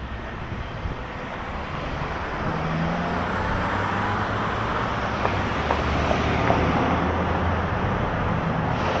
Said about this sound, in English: Okay, too much traffic at the end.